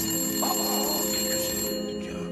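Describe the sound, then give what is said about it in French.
A telephone ringing, a bright, high, steady bell tone that sustains across the whole moment without any voices. “Il y a quelque temps, le père Fouras reçut un coup de fil des plus déconcertants.”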